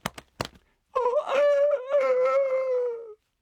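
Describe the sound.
A voice imitates a chicken's call: a few short clicks, then one long, loud, wavering high-pitched cry lasting about two seconds before it cuts off.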